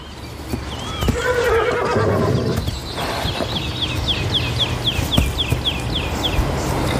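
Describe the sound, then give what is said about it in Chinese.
Wild horses from a herd of about 400 neigh and whinny, with one call early on, then many high, shrill, descending whinnies in a rapid series through the second half, over a steady background hiss. “这个野马群大约有400匹野马，它们的未来取决于领头的种马。”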